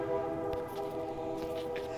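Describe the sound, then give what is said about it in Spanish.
A short train sound effect played as a joke cue: a steady, droning horn-like tone with layered harmonics, held evenly at moderate loudness for about two seconds. “Ah, el tren.”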